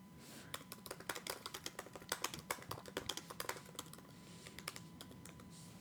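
Faint, quick keystrokes on a computer keyboard as a search query is typed, with many light clicks in an uneven rhythm of short runs and pauses.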